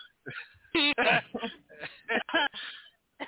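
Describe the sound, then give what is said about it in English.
Throat clearing from a man before he speaks, heard as a few short voiced, gruff bursts of varying loudness with brief gaps between them. “Let me clear my throat.”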